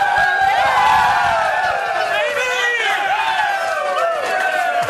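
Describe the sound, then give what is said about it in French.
Carolina Hurricanes hockey players cheering in their locker room as they welcome the team's 42-year-old Zamboni driver: loud, overlapping shouts, whoops and hoots that hold steady throughout. “je te fais entendre un extrait de l'accueil que M. Ayres, le chauffeur de Zamboni et homme de 42 ans, a eu en rentrant dans le vestiaire des Hurricanes.”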